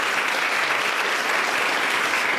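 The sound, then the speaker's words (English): Loud, continuous audience applause at a literary reading event, a thick, even roar of many people clapping with no breaks from start to finish. “A round of applause for Yiga.”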